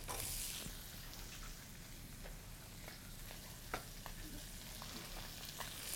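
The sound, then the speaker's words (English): Garlic, ginger and vegetables fry in hot oil for mapo tofu, making a soft, continuous sizzle with scattered sharp crackles and pops. The hiss stays even and faint throughout, with no voices. “Okay, so in goes the garlic, the ginger, and now the vegetables.”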